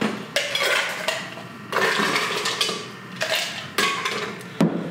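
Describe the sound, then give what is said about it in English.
Ice cubes drop into a cocktail glass holding a bright red mixed drink, giving several sharp, clattering clinks spaced a second or so apart, with no talk. “After we've got all that, we're going to throw a little bit of ice in there.”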